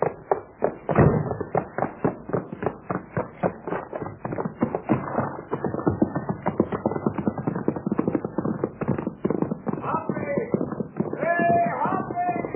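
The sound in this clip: Hoofbeats of a horse named Topper being ridden, a steady, even clip-clop of many hard strikes that continues through the whole stretch without a break.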